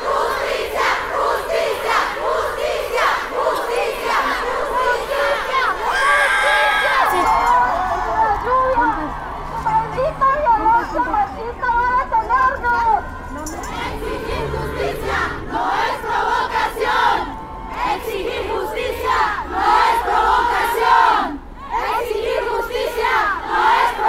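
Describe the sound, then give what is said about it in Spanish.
Thousands of women marching with placards along Paseo de la Reforma in Mexico City during a feminist march chant and shout loudly and continuously, massed voices rising and falling in rhythmic cries. “Mientras miles de mujeres caminaban con pancartas y cánticos por la avenida más emblemática de la ciudad, Paseo de la Reforma”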